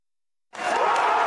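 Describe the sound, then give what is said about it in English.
AfD supporters erupt in cheering at state election exit poll results in Saxony-Anhalt, Germany. Silence gives way abruptly to a loud, sustained crowd roar. “AfD supporters erupt in cheer as exit polls on Sunday showed the German far-right party surging into first place in a state-level election for the first time since World War II.”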